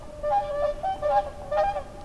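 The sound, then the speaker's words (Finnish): Swans calling on a frosty October night along a lakeshore: a few loud, nasal honking calls in short overlapping bursts, with no voices. “Kun tulee pakkasyö lokakuussa, niin joutsenet ääntelevät kaiken yötä.”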